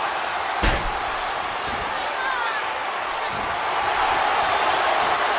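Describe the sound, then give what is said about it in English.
A wrestler crashes onto the mat in a fallaway slam during a wrestling match, giving one sharp, heavy thud early on, followed by a couple of fainter impacts. Steady crowd noise continues underneath the whole time. “And another fall away slam.”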